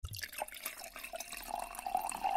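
A drink is poured, making faint trickling and splashing sounds of liquid that swell a little louder toward the end.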